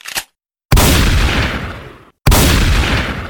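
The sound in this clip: Gunshots ring out: a brief faint burst, then two loud, sharp blasts, each trailing off in a long rumbling decay before the next.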